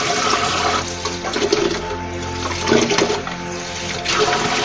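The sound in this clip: Running tap water splashes steadily as dishes are washed by hand in gloves with cheap dish soap; a continuous rushing, spattering flow with small shifts in intensity, no talk.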